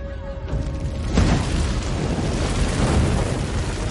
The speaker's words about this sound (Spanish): Un globo explota y caen varios soldados.